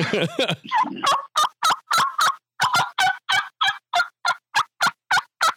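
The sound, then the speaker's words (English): Rapid, evenly spaced series of many short, raspy turkey yelps blown on a hunter's mouth call, preceded by a rougher, rattling burst, loud and alone without talk. “Is that your mouth call? Yeah, that's my mouth call.”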